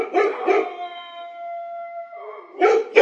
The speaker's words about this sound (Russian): Раздалось с противоположной стороны карьера. Сфокусировав взгляд, я увидел стаю бродячих собак.